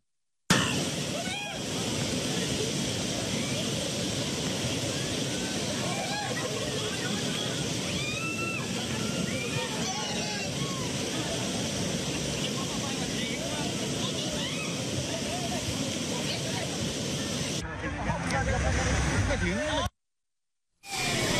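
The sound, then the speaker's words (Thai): Rushing white water during rafting on Khlong Song Phraek in Phang Nga: a loud, steady roar of churning rapids with splashes and indistinct voices mixed in. The sound breaks off briefly near the end. “นี่แหละค่ะคุณผู้ชมคือบรรยากาศความสนุกสนานของกิจกรรมล่องแกลดล่องแก่งคลองสองแพรกตำบลสองแพรกอำเภอเมืองจังหวัดพังงานะคะ”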